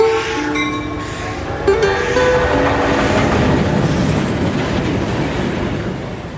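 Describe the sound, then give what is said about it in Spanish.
Freight train wagons roll in steadily, bringing potatoes, vegetables and rice to a Bolivian mining camp. A dense, continuous metallic rumble with high squealing wheel tones in the first seconds, no voices. “El 23 en la mañana llegó el tren carguero donde siempre traían papa, verdura, arroz, los alimentos para la pulpería. Llegaron los vagones, pero se quedaron en Cancañiri.”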